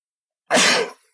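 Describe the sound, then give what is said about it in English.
A single loud, sharp sneeze bursts out abruptly after a moment of silence, lasting about half a second before cutting off. “that damn sneeze had to break up my love for the listeners”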